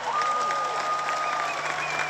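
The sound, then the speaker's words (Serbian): Audience applause for two young musicians joining the stage at a concert celebrating a songwriter's music: a dense, steady clatter of many hands clapping that holds at an even loudness from start to finish. “Molim vas veliki aplauz”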